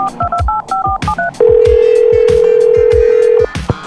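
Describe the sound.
Touch-tone telephone dialing: a quick run of about seven short paired keypad beeps, then a loud, steady tone held for two seconds before cutting off, all over a regular thumping beat.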